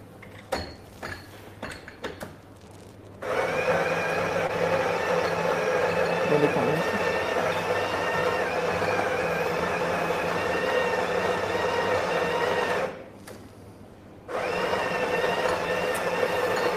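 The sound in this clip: Coffee machine grinding beans and brewing: a few faint clicks, then a loud steady mechanical whirring hum that cuts out briefly and starts up again.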